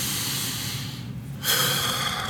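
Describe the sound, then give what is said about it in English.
Quick breath in and out, heard as a soft airy hiss, a brief pause, then a louder rushing breath that continues to the end. “Do we need just to breathe? Just a quick in and out.”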